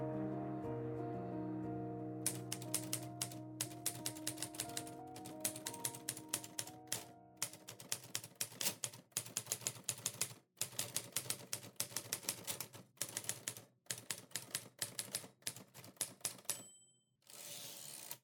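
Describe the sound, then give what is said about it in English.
A woman types on a typewriter, keys striking in quick, uneven clatters with brief pauses. The rapid mechanical taps continue through the whole passage, fairly faint, after a few seconds of low sustained tones at the start. “She unpins her hair and begins to type.”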